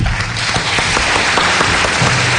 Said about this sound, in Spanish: Un aplauso para los dos.